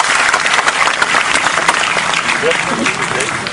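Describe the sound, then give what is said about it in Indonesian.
Audience applause at a spoken event: dense, steady clapping from many hands continues throughout, loud and even, with a voice briefly audible. “Teman-teman sekalian, tepuk tangan”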